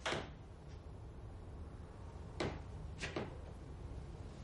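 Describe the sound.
A house door is eased shut slowly, giving a few soft knocks and latch clicks spread over several seconds against a quiet, steady background.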